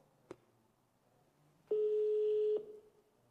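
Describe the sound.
A telephone call being placed and left unanswered: a brief click, then a single steady, pure mid-pitched ringback tone lasting about a second, with near silence around it.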